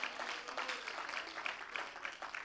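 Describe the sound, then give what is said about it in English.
A church audience claps their hands together at a revival service, a faint, fairly rhythmic patter of many hands that keeps a steady beat throughout. “Come on and clap your hands, everybody, if you believe that today.”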